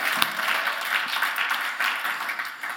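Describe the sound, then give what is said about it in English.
A church audience at the Nampa Civic Center claps hands together in dense, steady applause that holds at an even level for the whole stretch. “Come on, throw your hands together and let them know how much you love them. Come on, throw your hands together.”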